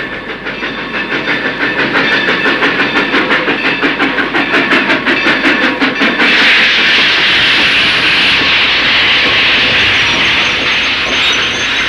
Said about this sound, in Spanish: A las 3 horas de nuestra partida, el tren se detenía en Kiel, a 2 pasos del mar.